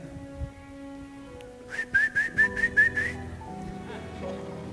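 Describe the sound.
A person whistles to call sheep with a quick run of short, high chirping notes in a rapid, even rhythm, set against a faint low background hum before and after.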